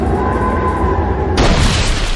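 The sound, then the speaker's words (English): A video game battle attack effect for the Wind Force move: a loud, sustained rushing roar that bursts suddenly brighter and harsher partway through, then holds at that level. “Foe Resgard used Wind Force.”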